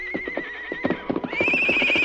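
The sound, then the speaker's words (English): A horse whinnies, a long shrill neigh that steps higher partway through, over a steady run of clip-clop hoofbeats. “He watched the approaching figures with eager eyes, tossing his mane and stamping his small hoofs. Then as Silver whinnied,”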